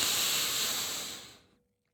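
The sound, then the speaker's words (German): A deep breath in, heard as a soft, steady airy hiss lasting about a second and a half that fades away into silence. “einatmen und dann noch wichtiger, ganz langsam ausatmen.”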